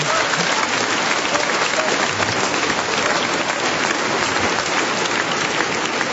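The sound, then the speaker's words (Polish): Loud, sustained applause from a large crowd on a diocesan pilgrimage, a dense, unbroken wash of clapping that holds an even level throughout with no voices on top. “te oklaski są pięknym wyrazem wdzięczności dla pana prezydenta miasta Torunia, Michała Zaleskiego”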